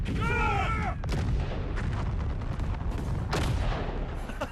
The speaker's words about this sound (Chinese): 打，一拍全体，听我命令，五发齐射，打。